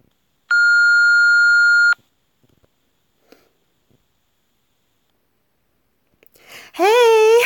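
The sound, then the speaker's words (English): A voicemail beep sounds once as a single steady electronic tone lasting over a second. Near-silence follows, broken by a few faint small noises, before a person starts talking at the end. “Oh, it's your voicemail.”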